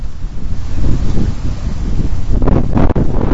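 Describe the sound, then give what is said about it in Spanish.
Strong northeast wind (nordés) gusting at over 90 km/h and shaking trees along the Alameda in Santiago de Compostela: a loud, continuous roaring rush with buffeting gusts and leafy rustling that swell toward the end. “Este era el fuerte viento del nordés que esta mañana agitaba los árboles en la Alameda de Santiago de Compostela, aunque podríamos haber recogido este sonido en otros muchos puntos porque ya se han registrado rachas de más de 90 kilómetros por hora.”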